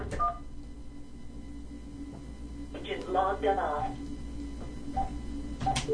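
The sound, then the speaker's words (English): Telephone keypad tones sound as a queue number is entered: a few short, clean beeps near the start and again near the end, with a voice talking between them. “Beep, beep, beep. Please enter queue number.”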